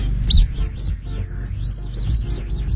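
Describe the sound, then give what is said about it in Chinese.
A bird-call whistle imitates birdsong with a continuous high, warbling chirp that swoops up and down, sounding over a low, steady rumble. “我们先看这个比较小的，我们管它叫鸟鸣器啊。 鸟鸣器。 它通过 通过这个 小鸟的叫声”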